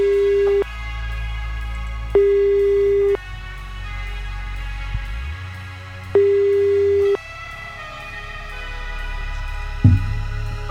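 Telephone ringing tone sounds while a call is placed to family members. Three steady, mid-pitched tone bursts, each about a second long, are separated by longer pauses over a low background hum, with a click near the end.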